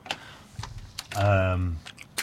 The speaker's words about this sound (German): Dein Stift ist runtergefallen.